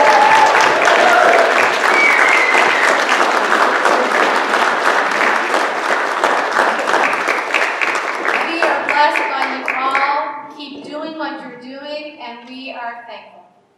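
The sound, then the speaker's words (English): A church audience at Trinity United Church, Summerside, claps for its music director and choirs. Loud, steady applause lasts around ten seconds, then fades away as voices take over. “Let us show our approval. Let us clap.”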